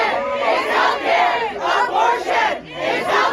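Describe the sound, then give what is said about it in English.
Protesters chant in unison on the steps of the Supreme Court in D.C., a loud crowd repeating the same short phrase in steady rhythmic bursts. “That was the sound of protesters on Monday night gathered on the steps of the Supreme Court in D.C. when the news was announced.”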